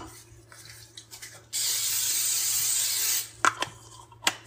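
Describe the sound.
Cooking spray hisses onto the bottom of a 9x13 baking pan in one steady, bright burst lasting under two seconds, followed by a few light clicks and knocks.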